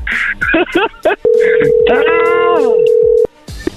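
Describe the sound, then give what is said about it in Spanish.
An outgoing phone call gives one steady ringback tone lasting about two seconds. People talk before it, partly over it and right after it. “Vamos a marcarles una vez más para aclarar esto, para que no se asusten.”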